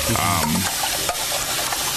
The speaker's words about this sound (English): I'm cleaning as I go here. I'm gonna scrub out this pan.